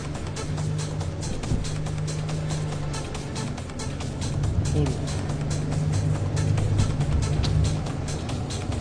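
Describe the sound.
A car engine drones steadily while being driven hard in a street race, a low sustained hum with shifting tonal lines that swells slightly toward the end, overlaid by a regular pulsing texture.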